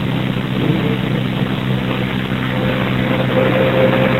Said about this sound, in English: Comes a garbage truck. Commercial trash.